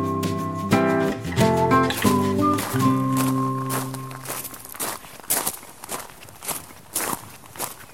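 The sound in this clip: Footsteps enter a home plant nursery room crowded with seedlings in a garden southwest of Uppsala. A short melodic chime opens, then a steady run of many soft steps follows at an even walking pace.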